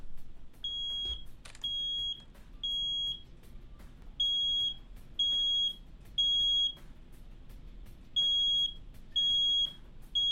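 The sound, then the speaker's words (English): A carbon monoxide detector beeps while scanning, with many short, high, piercing electronic tones repeating in uneven groups over a quiet background. “It's the only CO2 detector that makes noises when it's detecting.”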